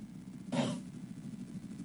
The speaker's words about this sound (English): I'm sorry, I had to sneeze. Wow. And I felt it coming, but it wouldn't come right away.